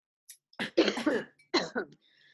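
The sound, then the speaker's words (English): Someone coughs after choking on coffee, with a dry throat. A few harsh coughs and throat-clearing bursts come in two uneven clusters, separated by brief pauses. “My throat is so dry. I choked on my coffee.”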